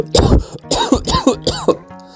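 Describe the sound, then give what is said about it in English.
Throat clearing: a few harsh, rasping bursts in quick succession, loud and alone, with short gaps between them. “Sorry about that. I had something in my throat.”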